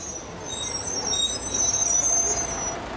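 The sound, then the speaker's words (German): A bus pulls up at a stop: a broad, steady engine rumble with airy hiss swells through the middle and then eases slightly, with no talking. “Der Bus kam. Alle stiegen ein.”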